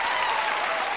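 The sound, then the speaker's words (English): Studio audience applause from The Oprah Winfrey Show, the kind used at commercial breaks. A dense, even wash of many hands clapping holds steady and loud for a brief moment. “And these sounds you're hearing are the actual Oprah audience recordings. We have all of the big, you know, like the crowd reaction that would happen when we would go to a commercial break. So that would be just the big audience applause,”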